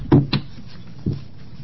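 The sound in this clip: A wooden gavel knocks to open a legislative subcommittee meeting. Two quick, sharp taps are followed by a third after a short pause, with no talking.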